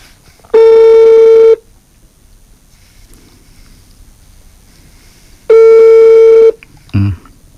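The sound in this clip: Ringing tone of an outgoing telephone call being dialed late at night: two long, even buzzing tones about four seconds apart, loud against near-silence between them.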